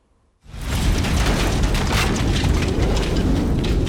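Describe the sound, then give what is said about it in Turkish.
A kitchen gas cylinder explodes in a cafe in Hakkari. After a short quiet moment a sudden loud blast breaks out and becomes a dense, sustained roar of crashing noise and rumble that lasts to the end. “Hakkari'de bir kafede mutfak tüpü bomba gibi patladı. Küçük tüp büyük bir deprem etkisi yarattı.”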